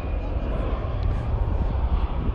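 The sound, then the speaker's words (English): Airplane taking off from an airport, a dense, steady engine roar with a broad rumbling body and no distinct breaks. “Off goes the plane then”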